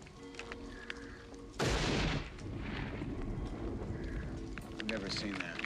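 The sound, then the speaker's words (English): Garbage can being banged hard with a stick down at the street: a loud, harsh clattering burst, then scattered sharper knocks over a steady noisy background, with people talking throughout. “Never seen anybody drive their garbage down to the street and then bang the hell out of it with a stick on them.”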